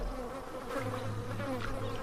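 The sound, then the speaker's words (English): Insects buzzing in a misty swamp in a video game: a dense, continuous droning hum of many wings, steady and even throughout, with a low sustained undertone and no voices. “Insects. This place is full of insects.”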